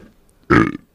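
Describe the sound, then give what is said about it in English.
A single short, loud burp, a throaty croak lasting about a quarter of a second and heard on its own with no talk. “I'm so sorry if you just heard that burp live on air.”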